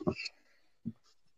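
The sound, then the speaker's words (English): A pen scratches on paper as notes are written down by hand in two brief, faint scratches separated by quiet. Short soft voice sounds come close beside them. “I'm just going to use, you're going to hear me writing down because I know a little bit.”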